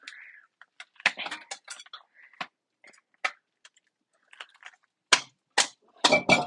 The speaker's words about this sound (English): Oh, just dropped my tongs in the sink.